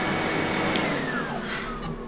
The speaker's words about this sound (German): mach doch mal den Staubsauger aus. Man versteht ja überhaupt nichts.